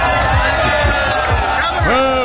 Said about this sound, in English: They booed it. The audience booed.